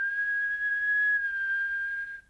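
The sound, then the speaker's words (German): A person whistles one sustained, clear, high note that holds almost level in pitch for about two seconds before tapering off, with no other sound around it. “Pfeifen.”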